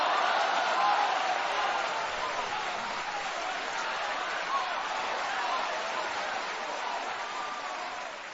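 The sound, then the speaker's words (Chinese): Audience applause fills a live crosstalk show, a dense, steady wash of clapping that carries on without a break for about eight seconds and eases off only slightly toward the end. “好了，听众朋友，在观众的掌声当中，我们今天的这个节目呢也要告一个段落了。”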